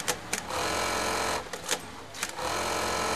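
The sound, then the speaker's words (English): Sewing machines run in a bra factory where rows of women work, giving a dense, steady mechanical whir broken by a few brief clicking stops and restarts, with no talk. “There, rows and rows of women hunch over sewing machines surrounded by piles of bras”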